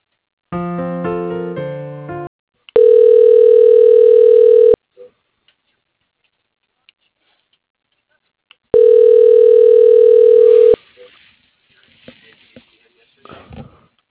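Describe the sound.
Telephone line tones sound as a call is transferred to voicemail: a short chord-like tone, then two long, steady, even beeps separated by a silent gap, followed by a few faint clicks.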